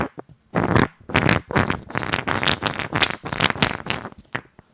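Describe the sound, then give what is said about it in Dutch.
A ceramic nut roughly the size of an apple and a ceramic bolt roughly the size of a small aubergine clink and scrape against each other as they are fitted together, producing many quick, bright, hard knocks in a busy, uneven run. “En deze moer is het formaat van een appel ongeveer. En van keramiek, zoals je hoort. En ze passen in elkaar.”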